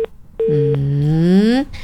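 Telephone tone after a call disconnects: a short beep, then a steady, buzzy tone rich in harmonics that bends slightly upward and lasts about a second before cutting off.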